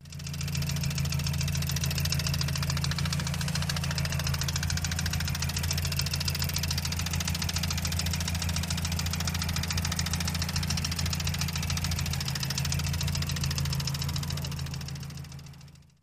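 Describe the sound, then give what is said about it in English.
A car engine idles with a faulty ticking noise, running as a steady, even, low-pitched drone for the whole sixteen seconds with no change in rhythm or level and no voices. “This is what the car sounded like.”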